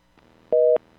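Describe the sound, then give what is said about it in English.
A telephone busy signal sounds as one short, steady two-tone beep, loud and alone against a quiet line. “Busy signal. What is going on here? It's busy. His phone's busy.”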